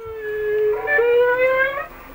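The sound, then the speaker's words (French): A whale sings one long, tonal moan rich in harmonics. It holds steady at first, then shifts upward and rises slightly in pitch before fading. “Ça, c'est le chant d'une baleine.”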